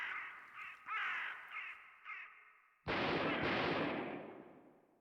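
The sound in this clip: Ravens give several harsh, raspy caws in short bursts. Then one sudden loud blast like a gunshot breaks in, and its rumbling tail slowly fades away.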